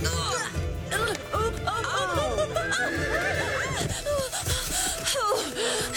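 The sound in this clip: A pony whinnies in a run of high, wavering neighs that rise and fall over several seconds, loud and repeated, with voices talking alongside.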